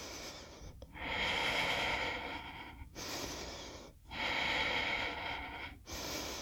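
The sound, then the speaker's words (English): Slow, deep breaths during a yoga session, with long, airy inhales and exhales alternating and separated by brief quiet gaps, soft and unaccompanied by talk. “Let's take three more breaths together, that's all.”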